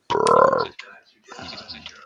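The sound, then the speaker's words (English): A single loud, drawn-out burp lasting about half a second breaks the quiet. A fainter, rougher vocal sound follows after a short gap. “Oh, what do you say, honey? Bah. What do you say when you burp?”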